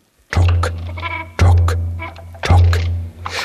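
Three loud sheep bleats come in steady succession, each a wavering, nasal cry lasting about a second.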